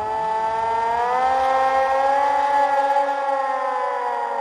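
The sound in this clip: Hand-cranked siren wailing across open fields: a loud, continuous tonal wail that climbs in pitch over roughly the first second and a half, then holds a steady high note to the end.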